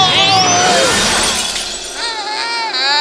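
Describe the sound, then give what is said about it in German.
A glass ball is dropped and shatters in a loud crash of breaking glass with bright tinkling fragments, while a voice cries out over it. “Meine Kugel! Er hat die Kugel runterfallen lassen. Knotterschlotter, jetzt ist sie kaputt. meine schöne Kugel.”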